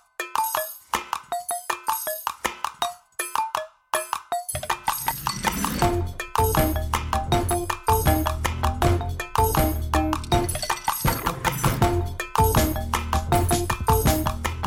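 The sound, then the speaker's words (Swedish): An intro jingle plays with clip-clop percussion, starting sparse and tapping for a few seconds before a fuller, steady beat and backing music join in. “Men nu rullar vi vignett.”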